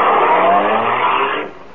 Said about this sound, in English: will you please drive me to 1893 Waterview Drive? I'm in a hurry.